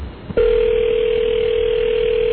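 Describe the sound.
A telephone dial tone sounds while a number from the phone book is about to be dialed: a brief click, then a loud, steady, unbroken tone that holds to the end.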